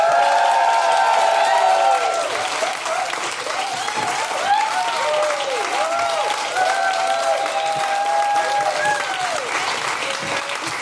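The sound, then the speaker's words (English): Loud, sustained applause from a live audience welcoming two hosts onto the stage, with whoops and cheers rising above the clapping throughout. “Are you getting the idea that it's super exciting though from those other cheering people?”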